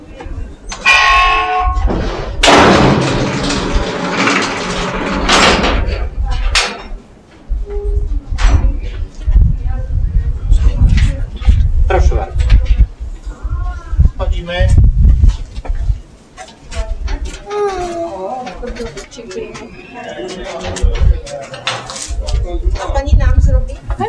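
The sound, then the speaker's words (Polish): A mine shaft cage riding up to the surface in the Kłodawa salt mine rattles and clanks with loud metallic knocks and scrapes, some heavy bursts early on, while people talk over the noise. “No i dochodzimy już do szybu i będziemy teraz jechać wracać na powierzchnię.”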